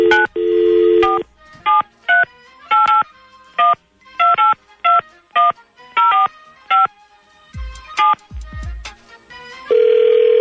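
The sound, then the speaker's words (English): A telephone keypad dials a number in a dialing race: many sharp touch-tone beeps of differing pitch in an uneven, hurried rhythm, ending on a longer steady tone. “I'm giving you your number. This is yours. Stay on your side, spaghetti arms, and I'll stay on mine. Are you ready? Yes. All right, dialing race.”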